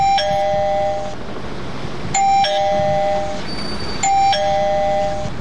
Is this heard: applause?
no